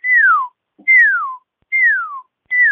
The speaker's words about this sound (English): And so the first call they make is called a search call, and it sounds like this.